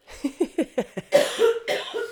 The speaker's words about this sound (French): Je sais que c'est con, hein, mais je te laisse tousser.